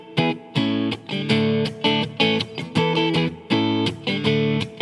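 Distorted electric guitar strums a short, choppy chord pattern built on E, A and D, with punchy repeated stabs and brief gaps, loud and alone with no voices.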